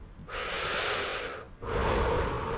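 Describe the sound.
Two long, breathy human breaths, one drawn in and one let out, each a steady airy hiss lasting over a second with a brief pause between them, close and clear with no talk.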